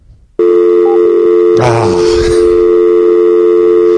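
A telephone tone sounds on an emergency line after the caller hangs up: a loud, steady, unbroken tone cuts in early and holds to the end, with a brief clattering burst partway through.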